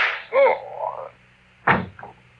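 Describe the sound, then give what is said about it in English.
A gunshot in a radio drama: one sharp, whip-like crack cuts in near the end after a short tonal sound. “And just one more shot for good measure. To make sure you are really dead.”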